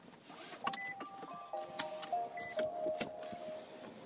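Faint electronic tones and mechanical clicks sound as a small electric car with about 85 miles of range starts up. A few steady chime-like tones hold over scattered soft clicks, quiet and with no talking.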